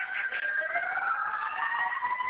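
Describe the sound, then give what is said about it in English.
Emergency siren passing outside: gliding, wailing pitched tones that slowly sweep up and down, heard moderately faint and steady with no voices. “1 second, I'm just going to wait for the siren.”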